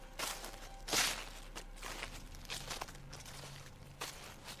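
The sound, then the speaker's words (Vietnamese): Footsteps rustling and crunching through dry leaves, a few faint, irregular steps with soft crackling between them, heard alone without talk. “Có tiếng bước chân xào xạc dẫm trên lá khô đi đến.”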